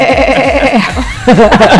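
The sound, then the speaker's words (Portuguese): A person's voice imitates a goat bleating, giving a loud, nasal, rapidly quavering bleat that lasts under two seconds. “Como é que carneiro faz? Eu sei fazer cabra.”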